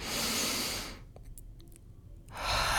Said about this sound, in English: We're going to take a deep breath in